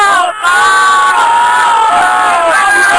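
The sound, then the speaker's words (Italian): A group shouting a cheer together, many voices raised in unison in one loud, sustained chant lasting about three seconds, with a brief dip near the start. “qualche urlo che ogni tanto noi intoniamo, un po' per allegria, un po' per soprattutto far sentire agli altri che, insomma, sì. Ecco, se volete ve le faccio anche sentire.”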